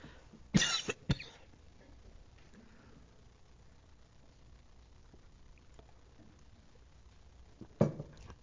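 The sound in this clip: Throat clearing and coughing from someone warming up the voice before singing: a few sharp, loud bursts near the start, a long quiet stretch with faint low background hum, then one more cough near the end.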